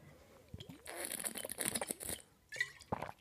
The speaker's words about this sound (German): Ich trinke jetzt einen Schluck.